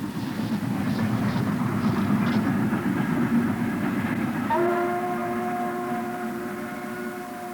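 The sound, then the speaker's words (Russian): A slow suburban train's wheels give a loud, steady low rumble. Midway a sustained horn tone joins and holds to the end while the rumble gradually eases. “Подмерный грохот колес медленно ползущего пригородного поезда я услышал и увидел”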